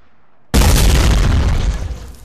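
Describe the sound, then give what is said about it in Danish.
A bazooka fires with a single loud blast that breaks sharply out of near silence, then roars as broad noise that slowly fades. “En bazooka.”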